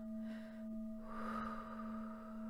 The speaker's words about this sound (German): Atme einmal tief ein und aus.